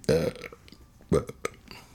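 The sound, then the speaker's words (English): Burping from a person, two throaty, resonant belches with a low buzzing tone, each short and fairly loud, separated by a pause of about a second. “I'm going to burp again.”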